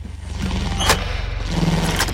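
Street traffic drifting past outside, heard as a continuous low engine rumble with a steady drone and a couple of brief, sharper bursts above it.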